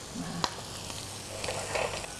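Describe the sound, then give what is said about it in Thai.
Vegetables sizzling on a stovetop grill over high heat: a steady, moderately loud crackling hiss with a few small pops and no voices. “เราอาจจะเอาทำให้มีลายนิดนึงนะคะเราก็ย่างลงไปในเตานี้ด้วยเลย”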